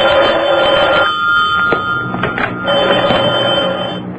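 A telephone bell rings in a sustained, metallic trill, stops for a short pause, then rings again.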